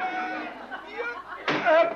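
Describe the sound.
A door in a run-down rented house is shut with a single sharp thud partway through, heard under continuous talk.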